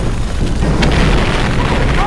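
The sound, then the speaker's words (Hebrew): Explosions boom during an attack while people take cover, a loud, dense rumbling wash of low booms that holds steady throughout with no clearly separate blasts. “יואו, איזה פיצוצים!”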